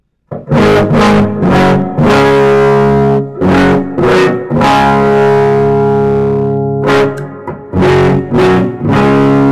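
A heavily distorted electric guitar with humbucker pickups and lowered tuning plays straight into the amp with no pedals. Loud, thick chords and sustained notes ring out in several bursts separated by short breaks.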